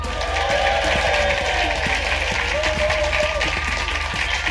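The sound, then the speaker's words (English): Audience applause at the Leicester Square Theatre welcoming comedian Richard Herring on stage: dense, sustained clapping from a large crowd, steady and loud from start to finish. “Ladies and gentlemen, welcome to the Leicester Square Theatre. Please welcome a man who's considering going into politics. It's Richard Herring.”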